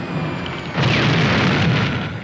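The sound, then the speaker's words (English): Artillery shells exploding on either side: a deep, heavy boom that opens into a sustained broad roar over a constant rumbling background, with no voices. “Shells land either side of him, and he's knocked off his feet.”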